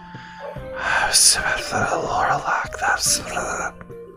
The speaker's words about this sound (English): you suddenly start to hear a stem of whispers come across.